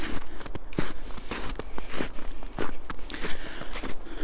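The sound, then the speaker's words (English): Footsteps on a wide, snow-covered trail through a meadow: a steady rhythm of many soft, crunching steps, loud and alone, with no talk. “Right now I'm walking in a meadowy area. The path is very wide and covered in snow.”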